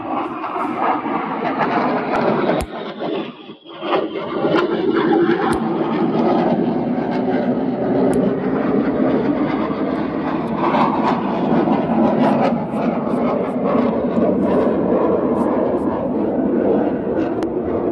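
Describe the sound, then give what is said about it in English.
A fighter jet flies overhead with a loud, sustained roar that holds steady throughout, except for a brief dip in loudness early on. “are you able to hear that fighter jet flying overhead?”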